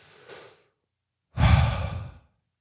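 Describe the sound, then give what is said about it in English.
Deep breath from a frustrated person: a soft, brief breath, a pause, then a loud, breathy exhale like a heavy sigh lasting nearly a second and fading out. “I'm getting frustrated with myself. I'm going to take a deep breath.”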